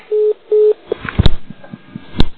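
A telephone number is dialed: two long, steady electronic tones sound first, followed by a run of sharp clicks and knocks in an uneven rhythm.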